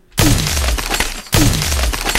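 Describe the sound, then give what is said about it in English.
A stalactite lands and shatters in a video game, giving a loud, bright crash of breaking, glassy debris. It comes as two sustained bursts, one repeating the other. “A stalactite lands.”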